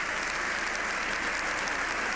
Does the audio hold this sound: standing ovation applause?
yes